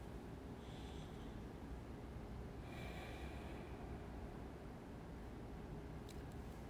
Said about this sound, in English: And I take a few breaths.